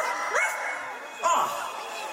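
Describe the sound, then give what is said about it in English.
Two short, yappy dog barks come about a second apart, each a quick, bright yelp over a steady background hum. “Where is that dog?”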